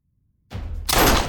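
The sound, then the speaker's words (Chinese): Gunshot sound effect in an audiobook, a pistol shot: silence, then a soft thump, followed by a louder sustained burst of noise that holds briefly. “唐默又射了一发子弹，也没有射中”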